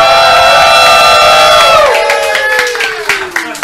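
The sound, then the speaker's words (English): A live studio audience at a tenth-anniversary show calls out a loud, drawn-out greeting in unison, the massed voices gliding down in pitch, then trailing into scattered claps and cheers. “we're here with a live studio audience. Say hi, everybody!”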